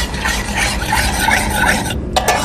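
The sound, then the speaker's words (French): Stirring a flour and coconut milk mixture as it heats gently in a pot, a continuous raspy scraping and rubbing with a brief break near the end. “il faut faire chauffer doucement, bien mélanger, surtout rester devant et vérifier pour pas que ça fasse des morceaux de farine et que ça épaississe trop”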